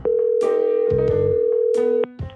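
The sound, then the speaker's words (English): A phone call to a manager rings through: one long, steady electronic tone lasts about two seconds, broken by a few clicks, then ends in a brief, different tone and a soft click. “So I phone up the person in charge to ask.”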